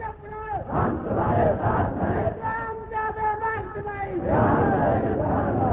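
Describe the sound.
A crowd chants slogans in unison with loud, repeated shouted phrases. Many voices rise together in rhythmic waves, and the sound grows strongest toward the end.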